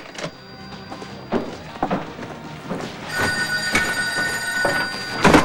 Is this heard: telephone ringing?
yes

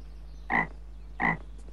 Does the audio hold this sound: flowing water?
no

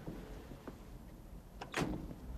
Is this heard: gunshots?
no

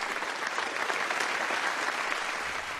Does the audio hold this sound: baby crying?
no

